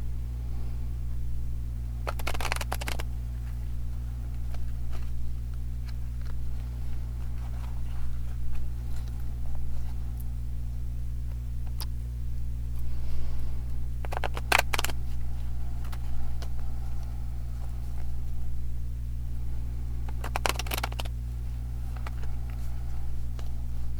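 A deck of guidance cards is shuffled in three short, soft rustling bursts spread across the stretch. They sit over a steady low hum, with no talking.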